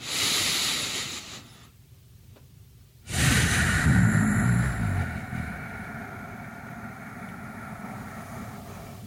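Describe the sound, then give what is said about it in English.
Slow, deep diaphragm breathing during a breathing exercise: one long, airy breath fades into a quiet pause, then a second strong breath starts and slowly tapers off, with no talk. “as soon as you're done with your exhale, you're breathing in with your diaphragm. Let's say you breathe in for about a 5 or 6 count. Okay, slow breath.”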